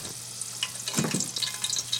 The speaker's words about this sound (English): We got our garlic on the oil right now for that aioli.